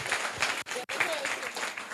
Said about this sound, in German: Ein Applaus für die Gruppe Smart Hut.